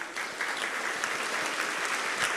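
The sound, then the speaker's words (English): An audience applauds leaders of small groups who stand up in a hall, a steady, dense wash of many hands clapping that holds an even level throughout. “so that we can just publicly applaud you and just thank you”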